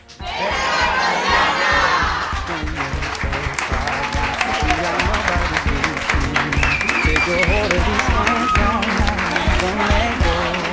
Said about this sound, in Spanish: Este ha sido nuestro especial en la inauguración de la Troyana en Radio USAL y lo despide este maravilloso público.